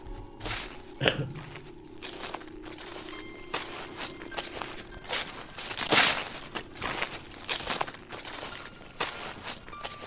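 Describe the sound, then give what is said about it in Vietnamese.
A horror-story sound effect of rustling and crunching: faint, irregular crackles and scratchy rustles, with many scattered sharp crunches and one louder burst midway. “Có tiếng loạt xoạt bắt đầu vang lên.”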